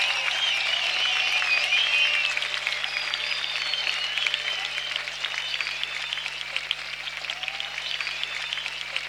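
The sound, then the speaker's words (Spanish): Audience applause at a performance for a children's group: dense, steady clapping that holds for about nine seconds, slightly louder at the start and easing off a little toward the end, with no talk over it. “Un aplaudiment especial també per al grup Trobada, que està aquí darrere.”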